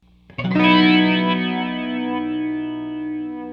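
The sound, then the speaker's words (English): A single sustained guitar chord rings through a TTC Electronic Limited Edition Chorus Flanger pedal. The strummed attack swells into a shimmering, swirling tone that holds steady and loud, slowly evolving without further playing. “I want to play some more of this Flanger because it's juicy.”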